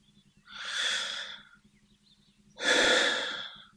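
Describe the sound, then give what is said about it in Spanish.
Two deep, airy breaths during a guided meditation, each a long, smooth rush of air lasting about a second, separated by a short quiet pause, the second slightly stronger. “Y ahora, quiero invitarte un segundo a respirar.”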